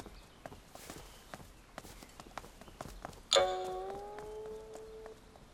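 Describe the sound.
Footsteps of someone walking away: many faint, evenly paced steps tapping throughout, interrupted by a single bright chime that strikes loudly and rings out, slowly fading beneath the continuing steps.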